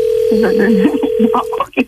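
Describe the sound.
A telephone dial tone after a call-back is placed: a steady, even hum runs under a voice talking, then cuts off abruptly near the end, followed by a few brief sounds.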